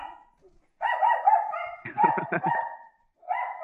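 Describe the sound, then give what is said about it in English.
Dogs barking at bears on a porch, with a few bursts of drawn-out, whiny barks and a quick run of sharp yips, separated by short pauses. No other sound is heard. “I thought you had big dogs. They're all barking because there's bears on the porch.”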